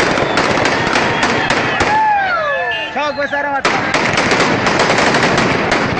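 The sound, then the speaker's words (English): Taliban fighters in the streets of Kunduz fire weapons in dense, rapid automatic bursts. The firing pauses while men yell and shout, then resumes just as fiercely. “here's the sound of Taliban fighters on Monday firing weapons and yelling in the streets of Kunduz.”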